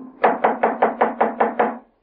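Knuckles rap on a front door: eight quick, evenly spaced knocks in a steady rhythm, loud and heard alone.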